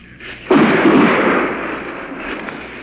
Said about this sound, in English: Seems like those artillery shells are landing in the back of my neck, whereas they were landing 200 yards to my right.